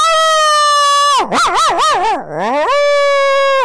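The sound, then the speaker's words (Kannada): A human voice imitates a dog, holding a long, bright whine that breaks into a wavering, wobbling howl dipping lower in pitch, then returns to the steady whine, loud and alone. “ಅದನ್ನ ನೋಡಿ ತಂದೆ ಅನ್ನುವಂಥ ನಾಯಿ ಬರ್ತದೆ”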